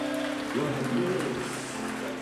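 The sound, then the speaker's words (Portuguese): A worship audience claps in church, a soft steady patter of hands under a voice. “As palmas são fortes para Jesus.”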